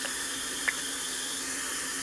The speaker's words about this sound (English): I'm, currently sitting in the shower, as far from the shower as I can